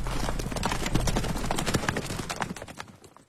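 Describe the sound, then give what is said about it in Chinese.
Many horses' hooves clatter in a dense, chaotic galloping rush as a group of riders leaves a manor on horseback. The loud drumming slowly fades and thins out toward the end. “纷纷上马，一会儿功夫便响起一阵乱糟糟的马蹄声，很快就远去”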